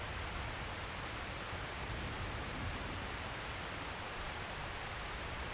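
Steady rain falling, heard alone as an even, continuous hiss with a faint crackle of drops and no break or change in loudness across the whole stretch.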